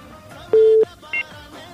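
Telephone line tones as a caller's call connects: one sustained low beep, then after a pause a short, higher and fainter beep over a quiet background hum.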